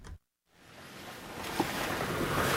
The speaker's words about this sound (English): What you're hearing are the winding, dizzying dirt roads up the mountains of northern Nepal.